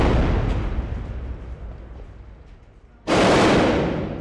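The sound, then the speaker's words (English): A heavy artillery shell blast lands down the block on a war front where government forces are shelling rebels. A low, rumbling background gives way to one sudden loud, broad boom that holds and slowly fades. “The regime is pounding the rebels with artillery shells that are exploding just down the block.”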